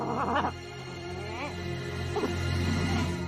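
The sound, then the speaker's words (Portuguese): A dog in a dubbed animated film gives several short, high, wavering whimpers and yips over a steady background. “Elliot, isso no seu rosto é chocolate? Não. É um cachorro. Ele vai melar o nosso plano.”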